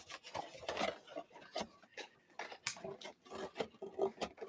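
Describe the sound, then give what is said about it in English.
Scissors cutting the flaps off a cardboard box along its seam for a craft: many short, scraping snips and rubbing rasps in an irregular rhythm, fairly quiet. “just go ahead and we'll cut all these flaps off. And if your other end is open already or whatever, that's fine. We'll just tape it closed later. But on one end, we're gonna cut all the flaps off. Conveniently right on that seam.”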